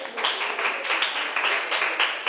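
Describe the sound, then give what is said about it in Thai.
Students in a classroom applaud a group of classmates with a short burst of quick, uneven clapping at moderate loudness. “ปรบมือให้กลุ่มที่3หน่อย”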